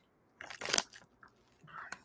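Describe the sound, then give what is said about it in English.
Crunching on spicy, hot lime tortilla chips gives a few sharp, brittle crackling bursts of chewing, separated by brief quiet gaps. “But it's getting hotter and hotter. Getting a lot of lime. They pretty much taste like Takis.”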